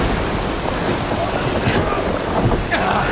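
Steady rushing roar of a thunderstorm with heavy rain, heard aboard a sailing boat pressing on through the storm at sea. A dense, continuous wash of noise runs the whole length with no distinct thunderclap.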